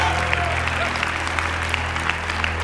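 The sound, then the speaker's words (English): A church audience applauds and cheers in celebration during a service, a dense, steady wash of clapping with voices mixed in. “Come on, can we make some noise for Jesus right now? Can we celebrate him?”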